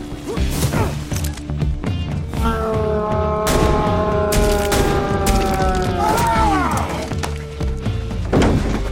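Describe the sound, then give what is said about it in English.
A rapid fusillade of gunshots, with one bullet striking a bathtub: many sharp, loud bangs and thuds close together, layered over sustained tones and a busy, dense background. “did you get hit? No, it hit the tub, but the bullet didn't make it through.”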